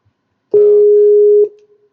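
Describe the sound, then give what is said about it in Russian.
A telephone ringing tone as a group call is dialed: a single steady, loud pure tone lasting about a second, opening with a short click and ending with a faint fading trail, then silence. “Не-не, я его просто добавляю сейчас в группу и звоню. Вот, вот я сейчас уже звоню.”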